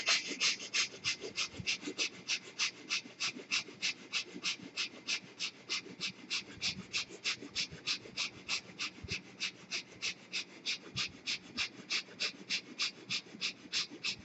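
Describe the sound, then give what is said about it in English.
Quick, short, gentle breaths drawn through both nostrils, many soft sniffing pulses repeating in an even, rapid rhythm. “start breathing short in the quick breath, gentle breath.”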